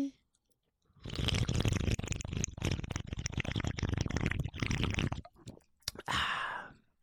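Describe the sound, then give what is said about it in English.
Fizzy gulping and slurping of a Red Bull energy drink, a dense crackling, wet burst lasting several seconds, then a short pause and one more brief swig. “Delicious Red Bull. I can taste the bile.”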